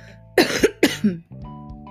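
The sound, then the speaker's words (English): A person coughs in a quick cluster of a few harsh, loud bursts, with a faint steady tonal hum continuing underneath and after. “Sorry if my coughing disturbed you.”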